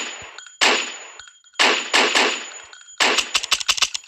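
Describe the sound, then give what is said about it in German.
A pistol is reloaded and fired in a video game: sharp gunshots and metallic clacks. A few spaced loud reports give way to a rapid, rattling cluster of shots and clicks, over a steady high-pitched tone. “So, jetzt mal hier schnell nachladen.”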